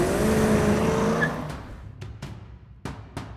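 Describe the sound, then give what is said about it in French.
A Ford car, hot-started with a screwdriver and driven at full throttle, revs to a loud engine roar with a rising whine for about a second. Five sharp cracking bangs follow as the engine noise fades. “Clyde et Buck attrapent le coffre et le balancent sur la banquette d'une Ford qu'il démarre avec un tournevis. Clyde prend le volant. C'est toujours lui qui conduit, pied au plancher.”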